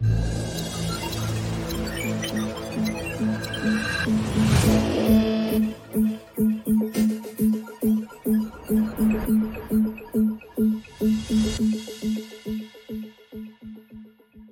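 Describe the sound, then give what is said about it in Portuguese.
An intro jingle for a daily investment news show opens with a sustained synthetic tone, swells into a loud sweeping whoosh, then breaks into many rapid, evenly pulsing electronic beats that fade at the close. “Então fiquem à vontade, a nossa conversa de todos os dias começa agorinha, logo depois da vinheta. Roda aí!”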